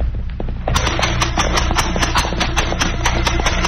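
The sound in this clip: Horse hooves clip-clop along a trail under a rider, a loud, steady, quick run of many sharp hoof strikes that keeps an even rhythm throughout.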